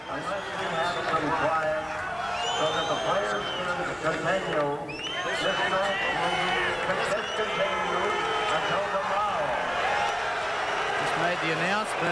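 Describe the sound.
Roaring crowd in a tennis stadium during a match, a continuous loud wall of many shouting voices that holds without a break across the whole stretch.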